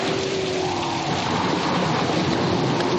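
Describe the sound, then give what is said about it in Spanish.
Rain pouring onto slippery stone on a cliff face, a steady, dense hiss that stays at an even loudness for the whole stretch, with no voices. “La lluvia cae sobre la resbaladiza piedra.”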